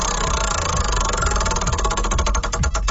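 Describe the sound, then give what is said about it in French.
A prize wheel spins on a game show, giving a continuous rapid ratcheting tick that grows sharper and more distinct toward the end, loud and alone. “on va tourner la roue, puis on va voir sur quel privilège tu tombes”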